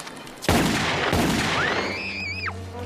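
Two loud gunshots ring out in a film scene where two bodyguards are shot, each blast with a lingering rumble. A high whining tone then rises, wavers and drops away.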